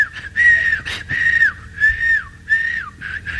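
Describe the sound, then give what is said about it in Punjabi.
Whistling by a person who has just learned to whistle, heading home happily: a few clear, high, bright whistled phrases that each rise and then fall, repeated with short gaps, loud and alone. “ਕਹਿੰਦਾ ਆ ਗਈ, ਬੜਾ ਖੁਸ਼, ਲਓ ਜੀ ਘਰ ਸੀਟੀਆਂ ਮਾਰਦਾ ਜਾਵੇ।”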